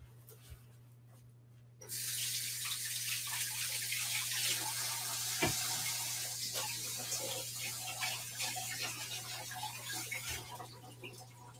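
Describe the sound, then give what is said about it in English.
A tap is turned on after about two seconds and water runs steadily while hands are washed during baking, an even rushing hiss over a low, constant hum, with no talking. “Let me wash my hands really quick.”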